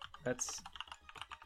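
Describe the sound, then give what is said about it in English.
Fast typing on a computer keyboard: a quick, uneven run of many soft key clicks, faint and brief. “I'll type that out.”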